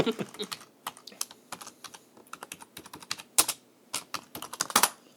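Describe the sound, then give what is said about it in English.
Rapid typing on a computer keyboard while entering a search, many irregular key clicks in quick bursts with brief pauses between, fairly faint and without talk. “I'm doing a Google search, seeing if Google knows the answer.”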